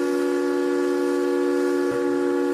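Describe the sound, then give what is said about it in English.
Steamboat whistle sounding a sustained, steady harmonic blast with several stacked tones, moderately loud and unbroken, with a brief dip near the end. “The sound of steamboat whistles was common,”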